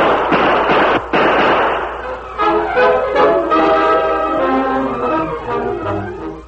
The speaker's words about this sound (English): The Lone Ranger dropped down beside his Indian friend, then turned and fired as a figure leaped behind a building.